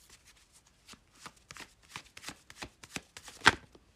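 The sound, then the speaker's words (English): Tarot cards being shuffled and drawn for a reading: many crisp riffling flicks in an uneven patter that grows busier, ending in one loud sharp snap near the close. “Next card out, we have the Fool.”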